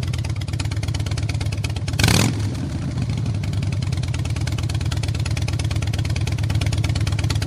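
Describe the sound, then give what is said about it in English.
A Fat Boy motorcycle with loud pipes pulling out. Its engine gives a steady, deep, throbbing rumble throughout, with one brief, louder burst of revving near the start, and no talk. “And you'll hear me pull out in the Fat Boy. Yeah. What a great, great set of pipes I have on that.”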